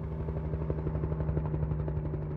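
Helicopter flying with shooters aboard, its rotor chopping in a fast, even rhythm over a low engine hum, moderately faint and steady throughout with no voices.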